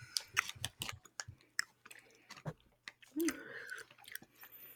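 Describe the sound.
Candy corn is being chewed: quiet, irregular crunching and wet mouth clicks in uneven bursts.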